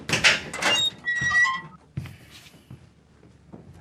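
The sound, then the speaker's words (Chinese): A door is opened with a faint, high creaking squeak, followed by a soft thump and quieter handling sounds. “把门打开。”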